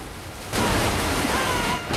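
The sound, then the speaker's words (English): Water gushes through broken submarine pipes, flooding the engine room in a dense, hissing roar that surges louder after a moment and then rushes on steadily, with no voices. “The next two go off, and soon huge plumes of water are gushing through broken pipes, flooding the engine room.”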